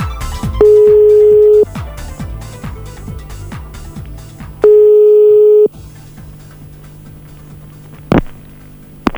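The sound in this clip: Telephone tones while a number is dialed: a steady high beep sounds twice for about a second each time over a run of rhythmic clicking pulses, loud and clear, followed by a sharp click near the end.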